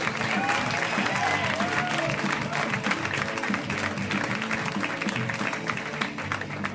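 Audience applause for a stand-up comedian being welcomed onstage at an LA comedy show, a full and sustained burst of many clapping hands with crowd noise mixed in, staying loud throughout.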